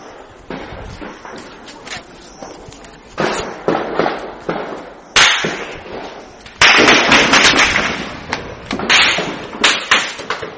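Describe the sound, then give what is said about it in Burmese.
Weapons fire over Mrauk-U town in Rakhine State at night: many sharp cracks and bursts, sporadic at first, then denser and louder toward the end. “အခုညပိုင်း9နာရီခွဲကျော်10နာရီလောက်မှာမြောက်ဦးမြို့ပေါ်ကနေကြားခဲ့ရတဲ့လက်နက်ပစ်ခတ်တံတွေဖြစ်ပါတယ်”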